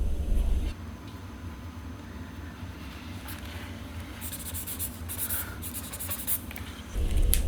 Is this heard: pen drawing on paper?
yes

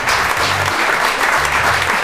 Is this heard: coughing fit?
no

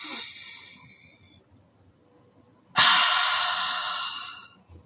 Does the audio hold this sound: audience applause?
no

